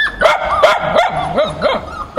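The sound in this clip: Dogs of various breeds barking in a shop at a pet market. Many rapid, loud, high yapping barks come in quick succession, some with yelping, whining tones between them.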